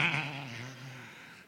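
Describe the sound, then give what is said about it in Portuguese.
A voice imitates a sheep bleating: one sustained, wavering, nasal call with rich harmonics that slowly fades, with no other sounds. “Você já ouviu a ovelha fazer isso?”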